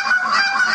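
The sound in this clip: A human championship goose caller mimics a goose with three raspy, nasal honks in quick, even succession, loud and unaccompanied by speech.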